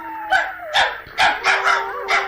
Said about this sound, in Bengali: ওই কুত্তাটার মায়া কান্না শুনছ?